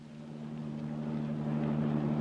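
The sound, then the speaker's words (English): A car motor runs as the car pulls out into the street, a steady low engine hum with a tonal drone that grows slightly louder. “Frank started the motor, and we pulled out into the street.”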